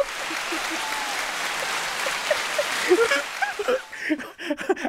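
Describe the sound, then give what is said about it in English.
An audience claps in a steady, fairly loud patter while a voice speaks over it, with light chuckles and a few sharper claps standing out toward the end. “Y'all keep clapping.”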